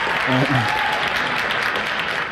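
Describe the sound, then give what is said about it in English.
Applause from an audience after a speech, a dense, steady wash of clapping that holds at an even level for about two seconds, with a brief voice near the start. “Obviously, it took me some work to arrange for the applause, but in my defense, that was applause I got for a speech I gave in 2014, 2015,”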